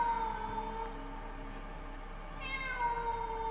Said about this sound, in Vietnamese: Trong đêm, tiếng mèo kêu vang lên làm cho Thảo My rùng mình, kinh hãi.